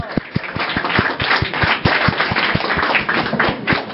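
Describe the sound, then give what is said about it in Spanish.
Audience applause for a poet and painter at a poetry reading: a steady wash of clapping with sharp, evenly spaced louder claps standing out on top at a brisk, regular pace. “Y un aplauso por favor para Lucero Balcázar.”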